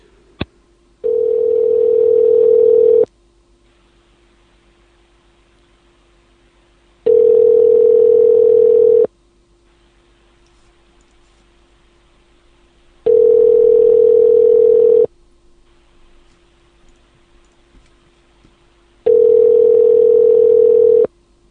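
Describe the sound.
Ringback tone of an unanswered telephone call in the UK: four loud, steady, even-pitched tone bursts of about two seconds each, separated by long quiet gaps over a faint constant hum.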